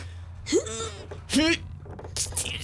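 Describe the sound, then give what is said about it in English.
A person groans with strain as if pushing something heavy, in a few short voiced bursts with breathy gasps in between. “Groan quieter. Sorry. You're groaning too loud.”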